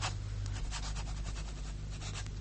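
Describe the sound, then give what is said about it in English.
A pen scratches across paper as a letter is written in a still, quiet home, a steady run of quick, soft strokes and rubs with no voices. “I am writing in the stillness of our home.”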